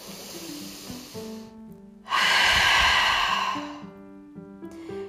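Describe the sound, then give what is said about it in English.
A big, deep breath taken as one loud, airy rush lasting over a second, standing out above soft, steady background music tones that continue before and after it. “I now just take a big breath.”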